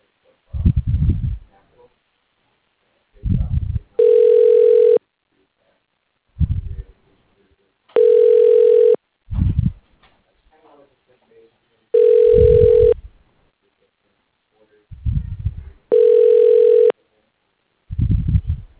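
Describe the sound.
A telephone ringing while an automated phone system tries an extension: four steady, evenly spaced ring tones, each about a second long, with short low muffled sounds between them.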